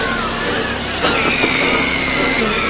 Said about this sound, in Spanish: una aspiradora comienza a funcionar en la bodega de los ratones